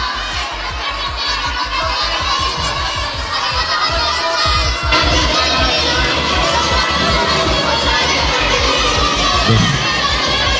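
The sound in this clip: A crowd of children shouting together at a prize contest, loud and sustained for the whole stretch, a dense wall of high, excited voices with no pauses.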